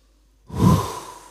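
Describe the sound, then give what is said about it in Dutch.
A deep breath drawn in during a relaxation exercise, heard alone as one breathy rush that swells quickly and then slowly fades. “Oké, adem maar even heel diep in.”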